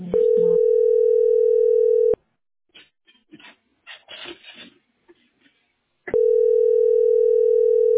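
Telephone dial tone while placing a call: a loud, steady, low hum lasts about two seconds and then stops. A few seconds of scattered clicks and handling noises follow before the same steady tone returns.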